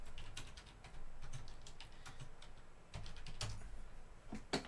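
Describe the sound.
Typing on a computer keyboard to enter a search, with a rapid, uneven run of many crisp key clicks and a slightly louder cluster of clicks near the end.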